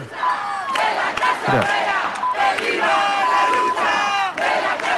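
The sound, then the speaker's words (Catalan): A crowd at a protest encampment at Sol chants slogans. Many voices shout loudly in uneven, overlapping phrases that keep the energy high. “Directe al so que ens arriba gràcies a l'Armenteres, a Sol, on hi ha tot aquest campament per reivindicar...”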